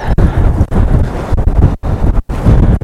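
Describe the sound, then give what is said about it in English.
Strong wind buffets the microphone in a loud, rough roar with low rumbling gusts and two brief dropouts near the end. “The wind is just monstrous again”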